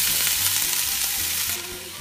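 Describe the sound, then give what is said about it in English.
Ingredients, including garlic, sizzle in hot oil in a pan with a loud, dense crackling hiss that runs continuously, dropping somewhat in loudness partway through, with no talk. “you're going to add all your ingredients so that everything gets nice and sizzly”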